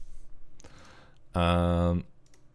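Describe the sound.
Computer mouse clicks, a few sharp, brief ticks scattered among speech.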